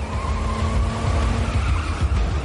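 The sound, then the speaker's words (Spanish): A taxi's rear wheels skid in a thriller chase scene inside a hangar, a sustained tire screech with steady squealing tones over a rumbling car engine, loud and unbroken for the whole stretch. “Comienzan a patinar las ruedas traseras del taxi.”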